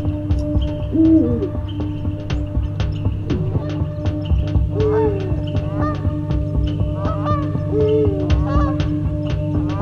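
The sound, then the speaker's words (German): Hooting calls of a hoot owl from far off, a few repeated calls over a steady low hum. “einsame Schrei einer Heuleule aus unendlicher Ferne melodisch zu mir herüber”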